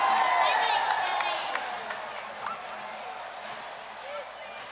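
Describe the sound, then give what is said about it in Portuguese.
Audience applause for a friend called up on stage: scattered claps and crowd noise mixed with loud voices, the clapping strongest at first and then thinning out. “Cadê as palmas da Amanda?”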